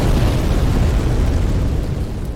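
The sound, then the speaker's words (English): A video-game explosion of red-black flame gives a dense, loud, roaring rumble that holds steady through the whole clip and eases only slightly toward the end. “We just sort of stood there as the red-black flame exploded out.”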